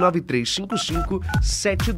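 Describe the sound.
Telephone keypad tones are dialed in a quick sequence of several short, clear beeps in a row.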